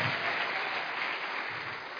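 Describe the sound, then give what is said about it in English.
A church audience clapping hands during worship: dense, continuous applause-like clapping with no clear gaps, fairly soft and even in level throughout. “Come on, clap your hands. Clap your hands.”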